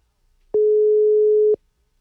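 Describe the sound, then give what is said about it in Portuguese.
A telephone ringing tone heard while calling someone: one steady mid-pitched beep lasting about a second, clean and alone, with silence before and after. “Deixa eu ligar pro Davi. Vamos ver se ele atende nós aqui.”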